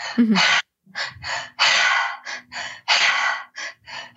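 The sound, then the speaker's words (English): Meditative breath work: a fast, rhythmic series of loud, breathy bursts, with short deep inhales alternating with longer, forceful exhales and repeated through the whole clip. “There is two deep breaths in first, so it gets deeper into the body, and then a really powerful exhale.”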